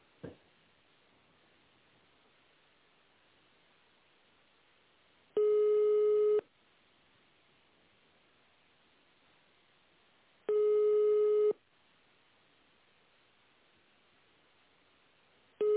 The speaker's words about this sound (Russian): Извините, связь прервалась. Sorry, the connection is lost.